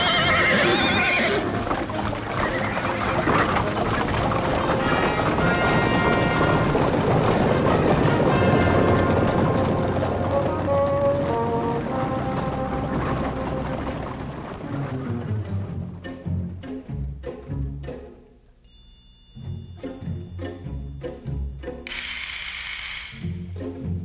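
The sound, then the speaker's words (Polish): Horses neigh and hooves clop as chariots set off, with ratcheting mechanical clatter. A dense, loud jumble of noise gives way to sparser, separate clops, and a couple of sharp, high whinnies ring out near the end. “Przygotować rydwany! Jedziemy natychmiast do Jezreel!”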